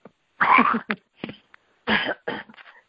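Someone coughs while choking on a piece of something, with harsh, rough bursts in two main clusters separated by a short pause. Smaller rasping coughs come between the clusters.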